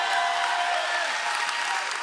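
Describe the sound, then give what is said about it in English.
A church audience claps their hands in praise, a dense, loud, continuous wash of applause that holds steady to the end. “Somebody give the Lord a hand clap.”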